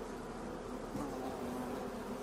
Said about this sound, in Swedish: Jag tycker det nästan låter som en flugsvärm på, på avstånd eller någonting. Eller bin kanske.